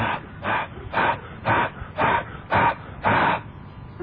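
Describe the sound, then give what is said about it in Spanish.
A person exhales onto a frozen car windshield to defrost it: about seven evenly spaced, breathy huffs of hissing breath in a steady rhythm, heard alone. “Ah, yo para descongelar el parabrisas, ¿sabe qué le echo el aliento?”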